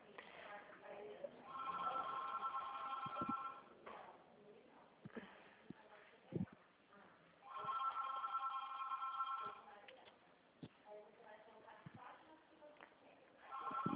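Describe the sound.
A telephone rings in two long, steady bursts several seconds apart. The tone is bright, narrow and buzzing, with faint talk, clicks and brief knocks in the quiet gaps between the rings.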